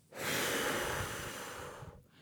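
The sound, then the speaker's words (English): A full, forceful exhale during a breathing exercise, after the lungs are filled to capacity. It is one long breathy rush lasting about two seconds, easing off slightly before it stops, with no talking. “My lungs are full now. And then you're going to exhale all of the air that you can possibly find in your lungs.”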